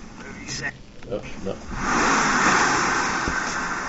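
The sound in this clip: A Mercedes car engine in a scene from the film Lost Highway swells into a loud, steady roar after a short stretch of talk, holding strong and easing only slightly toward the end.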